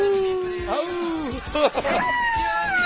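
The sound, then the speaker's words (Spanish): A human voice imitates a wolf howl with a long, steady tone that slowly sinks in pitch, then breaks into shorter, wavering vocal sounds. “Un aullido mejor. ¿Cómo es el aullido?”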